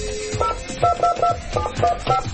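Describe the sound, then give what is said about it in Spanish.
Telephone keypad tones as a number is dialed by hand: a quick, uneven series of short, clean two-note electronic beeps in a mid-high register, each crisp and brief, with low rumble underneath. “Tenemos tono. Perfecto. Todavía se dice discar, ¿no? Se dice discar porque no tienen más disco los... No tienen más disco los teléfonos.”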